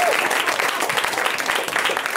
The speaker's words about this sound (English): Give yourselves a round of applause for coming out tonight.